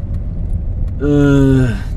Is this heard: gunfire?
no